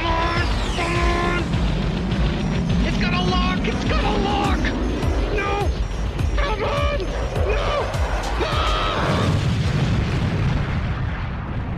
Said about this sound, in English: He fired a rocket. Evading maneuvers.